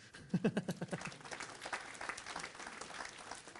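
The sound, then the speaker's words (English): Audience applause at a technical programming talk: a dense, steady wash of many hands clapping that runs evenly through the whole stretch at moderate loudness, with no break or clear peak. “I think that deserves a round of”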